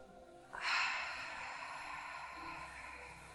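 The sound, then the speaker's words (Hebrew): A deep breath drawn in during a yoga class, a soft airy rush that swells in after about half a second and holds steady to the end with only a slight fade. “עוד שאיפה אחת כאן.”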